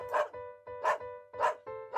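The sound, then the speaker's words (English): A dog barks four times in an even rhythm, each bark short and sharp with pauses between. The barks are fairly faint and no other sounds are heard. “What is your dog really saying to you?”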